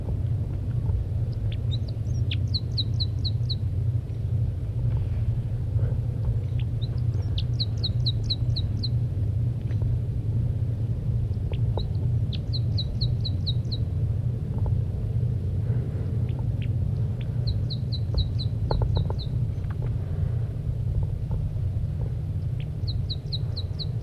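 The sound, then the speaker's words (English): A female bird giving flight calls from the nest: brief bursts of rapid, high chirping notes recur every few seconds over a steady low rumble. “The female continues to give flight calls from the nest.”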